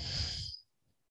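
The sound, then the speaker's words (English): A single breathy rush of air from a person breathing during a guided movement class, loud and steady for about half a second before cutting off abruptly into quiet. “Breath in, breath out.”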